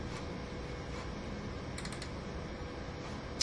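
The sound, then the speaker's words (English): A computer mouse double-clicks on buttons in the Visual Studio designer. The faint, crisp plastic clicks come in quick pairs and short bursts against a quiet, steady background. “I'm going to start by double-clicking on the buttons in the designer”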